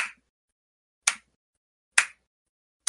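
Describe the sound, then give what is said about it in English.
A slow clap: four single, sharp claps spaced about a second apart, each standing alone in silence with a quick decay. “And someone's doing sort of a slow clap.”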